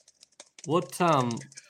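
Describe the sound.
Typing on a computer keyboard while entering data into a spreadsheet: a patter of light key clicks before and after a short spoken phrase in the middle.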